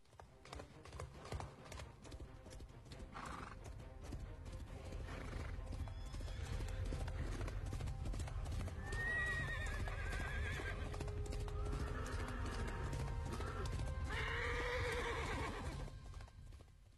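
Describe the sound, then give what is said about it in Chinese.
A ridden white horse clip-clops along in a steady run of many hoofbeats, and loud whinnies ring out over the hooves a few times. “大伙都骑着马，特别是李白这匹马绝地白龙驹”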